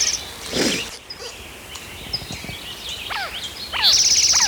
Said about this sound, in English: A lot of background noise out of birds.